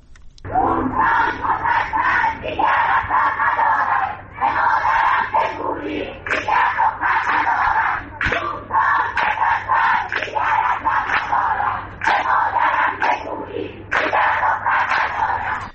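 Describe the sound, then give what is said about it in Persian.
Protesting students at Allameh Tabatabai University chant together, loud rhythmic slogans rising in repeated bursts with short breaks between phrases and occasional sharper shouts. “صدای دانشجویان دانشگاه علامه طباطبایی بود.”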